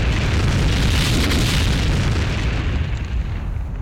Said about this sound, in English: Once this huge object impacted our atmosphere, it blew up with the force of 2,000 Hiroshima-sized atomic bombs.